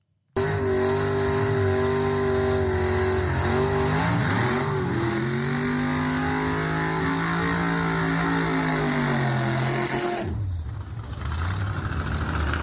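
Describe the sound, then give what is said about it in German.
A dragster quarter-mile race car doing a burnout: a very loud, sustained engine roar with a wavering pitch that dips briefly near the end before surging again, with no voices. “Das war ein kleiner Burnout von einem Dragster, von einem Viertelmeile-Rennfahrzeug, wie auch immer.”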